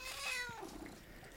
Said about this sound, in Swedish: Det är Malenas kattunge. Ja. Ja, eller var ju en kattung, men är ju inte så liten nu mera.